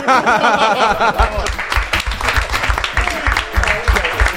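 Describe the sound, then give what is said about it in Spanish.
An audience applauds on a trivia game show, a dense, steady wash of clapping with scattered louder claps. Voices talk over it, most clearly at the start. “Y lo aplauden, por favor. No, no, no solo lo aplauden, sino que le vamos a volver a aplaudir.”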